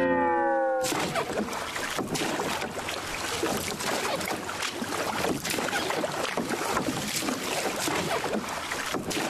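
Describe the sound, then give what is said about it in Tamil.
A boat moving across water toward a group of sharks gives a loud, steady rushing wash with wind buffeting. It starts abruptly after a brief opening and holds a broad continuous roar to the end, with no talk. “அதே இடத்துல நிக்கிற அந்த சுறா மீன்களை நோக்கி நம்ம போட்டை நகர்த்தி கொண்டு போவோம்.”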